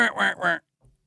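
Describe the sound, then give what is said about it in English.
A man's voice imitates a mallard duck call for hunting, used instead of a duck call. Three quick, loud, nasal quacking bursts are followed by a faint low thump. “So instead of going like with a duck call,”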